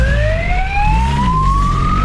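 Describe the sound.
A police siren wails during a motorcycle chase through city streets, a loud continuous tone sweeping steadily upward in pitch over a low engine rumble.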